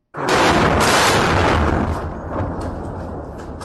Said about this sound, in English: That is the sound of an airstrike that hit close to military headquarters in Khartoum Tuesday morning, as the warring side showed no sign of upholding the ceasefire announced the day